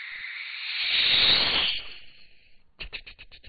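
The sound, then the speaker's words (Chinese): A long hiss for a snake coming out of a cave, a steady breathy rush that swells in the middle and then fades, followed by a quick run of short, sharp clicks. “这什么声？刚才那声是蛇出来了。”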